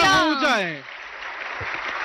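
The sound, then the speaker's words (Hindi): A voice is followed by audience applause for Prime Minister Narendra Modi at a public event, the clapping continuing as a steady, moderate wash of sound. “देवियों और सज्जनों, तालियों की गड़गड़ाहट रुकनी नहीं चाहिए.”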